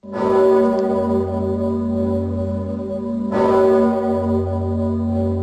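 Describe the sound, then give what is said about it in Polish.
Deep tolling of a large historic church bell in Kraków, rung to open national Constitution Day anniversary celebrations: two heavy strikes about three seconds apart, each followed by a loud, sustained low hum. “W Krakowie dźwięk dzwonu Zygmunta rozpoczął obchody 227. rocznicy uchwalenia Konstytucji 3 maja.”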